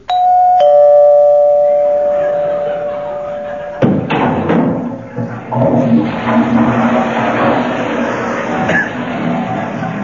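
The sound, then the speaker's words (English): A doorbell rings with a sustained chime as someone calls at the door, followed by a few dull thuds and a busy jumble of clattering noise. “That was the Avon lady calling at a very inconvenient moment.”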